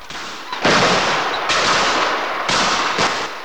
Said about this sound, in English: lets off a barrage of almost random shotgun fire into the air.